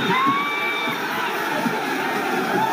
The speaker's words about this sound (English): They are cheering in Cleveland.